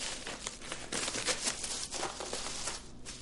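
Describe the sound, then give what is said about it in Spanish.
Crinkling of a paper package being opened, a faint, irregular rustle of crackles running throughout with no talking. “Dentro deja las cartas y abre el paquete.”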